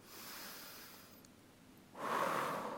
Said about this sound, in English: I invite you to take a deep breath.